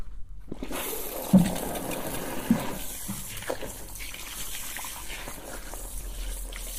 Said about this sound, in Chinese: 好了，冲水了。